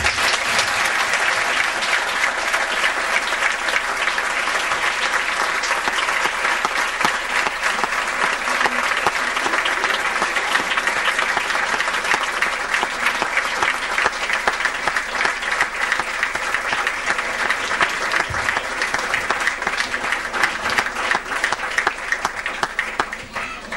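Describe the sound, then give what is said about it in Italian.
Audience applause after a lecture on the father's role, a dense, steady wash of clapping that stays loud and even for the whole stretch with no voices rising above it. “Applauso per il professor Poterzio”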